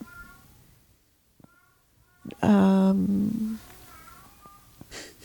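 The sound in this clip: A cat lets out one loud, drawn-out, wavering meow in the middle, with faint talk before and after it.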